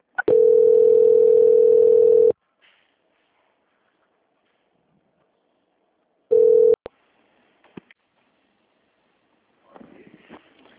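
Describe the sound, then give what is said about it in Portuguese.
A telephone call transfer tone on a bank's customer line: a steady, loud beep lasting about two seconds, several seconds of silence, then a shorter beep at the same pitch, followed by a few faint clicks and brief soft noise. “aguarde em linha que vou transferir o contato para o controle de qualidade”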